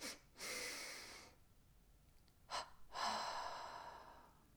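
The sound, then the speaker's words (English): Breathing exercise for relaxation: a double inhalation through the nose, two quick soft sniffs, then after a pause a double exhalation through nose and mouth, a short puff followed by a longer airy breath, quiet and without talk. “we'll do a double inhalation through the nose. We hold the breath. And then we do a double exhalation through the nose and the mouth. Sounds like this.”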